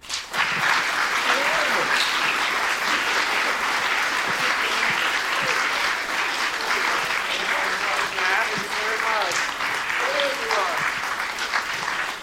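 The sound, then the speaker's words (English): Audience applause welcoming a guest to an evening talk, a loud, continuous patter of clapping from a full room that lasts throughout, with voices heard over it. “So ladies and gentlemen, welcome James Mullinger.”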